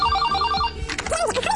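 A telephone rings with a fast, warbling electronic trill for under a second, and other sounds follow once the ringing stops.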